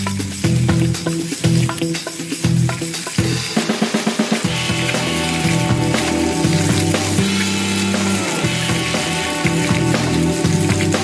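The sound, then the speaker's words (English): Canadian bacon frying in a pan with a loud, continuous sizzle. A rapid burst of crackling pulses rises midway before the steady hiss settles back in. “Now, get ready for Canadian bacon. It's time to start cooking.”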